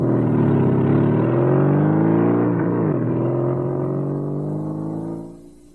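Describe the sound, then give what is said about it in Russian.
Motorcycle engine running as the bike leaves a yard and rides away, a steady, loud droning tone that dips briefly in pitch midway, then fades quickly at the end. “выкатывает со двора мотоцикл. Уезжает.”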